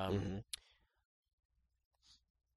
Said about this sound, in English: okay, so I'm going to click on Heroes Paradise to see what it is.